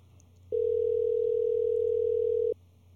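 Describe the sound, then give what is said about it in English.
Ringback tone of a phone call being placed: one steady, unbroken mid-pitched tone lasting about two seconds over a faint low hum, with no voices. “So we're going to give him a call.”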